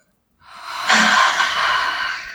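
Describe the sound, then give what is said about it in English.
One slow, deep breath drawn in through the nose during a guided meditation. Quiet at first, it swells into a full, airy inhale that lasts about two seconds. “Deep breath.”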